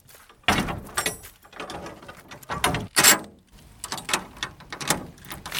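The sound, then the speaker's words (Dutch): A container door at a stone quarry is swung shut with several loud, irregular metallic clanks and scrapes in quick bursts, the heaviest about halfway through, with no voices. “Ja, doe de container maar weer dicht. Ja, die gaan we weer dicht doen.”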